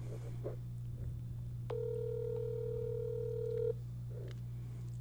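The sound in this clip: A single steady telephone ring tone sounds while a call waits for an answer, lasting about two seconds over a constant low hum, fairly faint, with quiet murmurs before and after.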